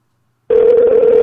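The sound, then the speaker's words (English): A telephone dial tone follows a disconnected call, starting abruptly after half a second of silence as a single steady mid-pitched hum that holds loud and unbroken to the end, with no talking. “We're sitting there calling her back because we got freaking disconnected.”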